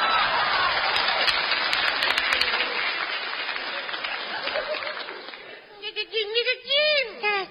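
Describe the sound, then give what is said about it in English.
Studio audience applause and clapping, a dense, steady patter for about five seconds that thins out as a voice starts speaking at the end. “Suddenly see studio audience. Hello, everybody. Thank you, clappers. Thank you.”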